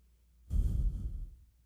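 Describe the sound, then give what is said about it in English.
A single deep breath during a yoga exercise, drawn in and let out through the nose, a soft, breathy rush that swells and slowly fades on its own. “Notice the air coming in through your nostrils. Fill up, let go.”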